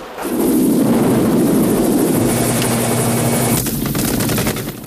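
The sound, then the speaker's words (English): Helicopter circling a prison camp in the film Rambo, its heavy rotor roar blending with continuous machine-gun fire from the ground, loud and dense throughout with a steady low droning tone partway through. “Russians and Viet soldiers return fire from the ground as Rambo circles the camp in the chopper.”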